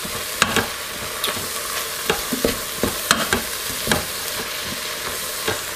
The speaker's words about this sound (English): Let some of the oil cook out a little bit before I start putting the spaghetti sauce in there.